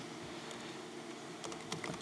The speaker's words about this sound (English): So I'm going to type it here.